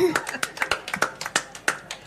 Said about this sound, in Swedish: Ja, och vet du vad, att jag tycker faktiskt att du är värd en stor varm applåd.